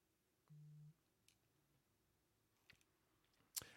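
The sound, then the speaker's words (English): Faint computer mouse clicks on a link sound as a few sharp, isolated ticks, following a short, low electronic tone. “I'll click back on the link.”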